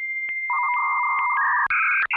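Dial-up modem answering a call to a bulletin board system: a steady high answer tone pulses, then buzzing mid-pitched handshake tones enter and step up to higher warbling tones, with two brief dropouts near the end.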